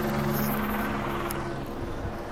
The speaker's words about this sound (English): It was a helicopter flying right overhead.